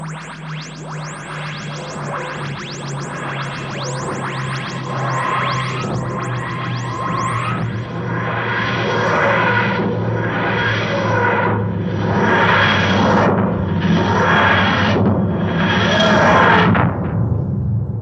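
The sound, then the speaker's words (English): The Doctor Who TARDIS lands with a wheezing, groaning materialisation sound: a dense scraping texture gives way to several rhythmic, rising-and-falling mechanical groans over a low steady hum, ending abruptly. “I think the TARDIS needs a landing. Yeah, we've got some good bits of news to get through. Let's land it.”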